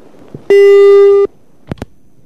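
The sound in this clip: Telephone busy signal on a failed call: one loud, steady, pure beep of under a second, followed by two quick soft clicks after a short gap.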